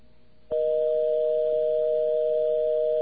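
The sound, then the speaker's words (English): Telephone busy-signal tone on a local calling line: a steady, unbroken mid-pitched electronic tone that starts abruptly after half a second and holds at an even level to the end. “that sounded like sort of a busy signal there”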